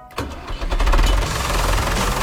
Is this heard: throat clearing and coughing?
no